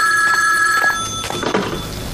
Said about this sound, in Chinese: 电话铃7:59准时响了